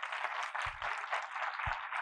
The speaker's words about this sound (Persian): آقای دکتر فاضلی عزیز، مجدد تشویقشون بفرمایید.